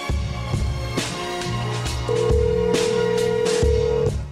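A telephone is dialled to place a call, with a run of short dialing tones and then a long steady tone that holds for about two seconds.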